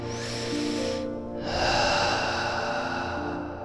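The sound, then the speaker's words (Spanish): A deep breath taken during a guided relaxation exercise: a soft, airy breath sound, then a brief pause, then a longer, fuller breath that gradually fades, with no talking. “Cierra tus ojos. Respira profundamente”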